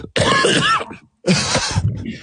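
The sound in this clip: Coughing and throat clearing from one person: two long, rough, voiced bursts separated by a brief pause, both loud.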